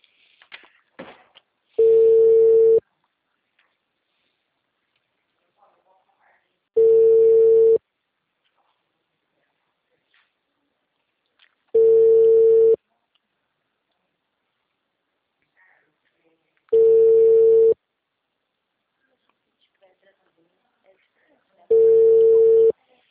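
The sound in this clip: Telephone ringback tones while a call is being placed: five steady mid-pitched beeps, each about a second long and evenly spaced about five seconds apart, with near silence between them.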